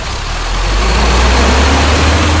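A twelve-horsepower car engine gives a loud, steady low rumble with broad noise, swelling slightly in the first second and then holding evenly.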